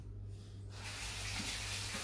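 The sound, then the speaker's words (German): Running tap water as oily hands are washed at a kitchen sink during cooking, a steady rushing splash that swells louder after the first moment and continues evenly, with a low electrical hum beneath and no talking. “Muss ich mir mal die Hand waschen, die ist jetzt sehr ölig.”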